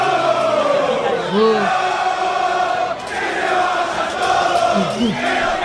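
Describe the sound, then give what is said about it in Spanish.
San Lorenzo football fans chant loudly after a 3-0 away defeat to Defensa y Justicia in Varela, jeering and insulting everyone. Many voices blend into a dense, sustained roar, with rising and falling shouted phrases throughout. “Si te parece, escuchamos un poquitito a los hinchas de San Lorenzo después del partido con Defensa.”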